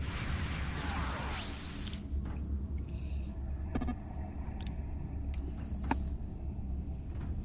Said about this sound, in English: So I'll teleport you guys first so you can help me get the rest of the team here. And if you do teleport me, I'm going to start teleporting from the bottom up.